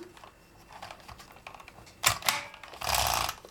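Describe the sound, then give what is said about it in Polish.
Keys clack as someone types letters and presses the space key on a keyboard. Faint, irregular taps lead into louder clacks and a longer rasping mechanical burst near the end. “Więc teraz robię odstęp. I piszę dalej.”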